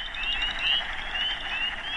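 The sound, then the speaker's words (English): A spring mating-season frog chorus rises from a wooded pond: wood frogs, spring peepers and chorus frogs trilling and peeping together in a dense, continuous, high-pitched wash that stays loud throughout, with no voices. “Tamarack Refuge, full of wood frogs, spring peepers, chorus frogs. All those frogs are quiet now. Mating season is over. But it sounded very different 2 months ago.”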